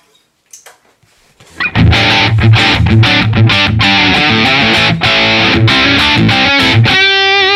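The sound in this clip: Electric guitar played through a modeled amplifier with heavy distortion: a few faint picked notes, then loud, driving distorted riffs with rhythmic chugging accents, closing on a ringing, wavering sustained note.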